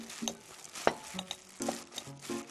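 Wet stirring and squelching as pre-salted pickled vegetables are tossed lightly with seasoning in a bowl, with a few soft shuffles and a sharper tap near the start.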